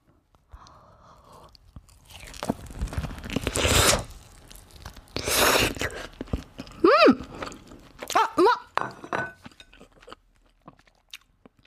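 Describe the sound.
Crunchy bites and chewing of deep-fried cheese, fried half-melted inside: a run of loud crisp crunches and tearing sounds, with a few brief murmured voice sounds in between.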